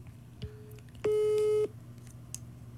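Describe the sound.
A telephone tone sounds while a call is being placed: one loud, steady electronic beep holds for just over half a second over a low background hum, preceded by a fainter, shorter tone.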